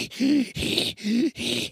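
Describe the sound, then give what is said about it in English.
A human voice imitates an overweight bulldog struggling to breathe: four loud, rhythmic, rasping snorts, each carrying a throaty groaning tone, repeated in a steady pattern. “They're like pugs. They're just like overweight people. They just can't breathe. They're just like,”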